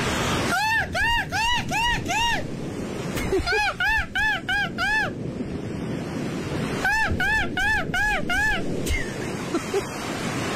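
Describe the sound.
A man imitates a seagull, giving three bursts of rapid, high, arching yelps of several calls each, over a steady roar of wind and surf.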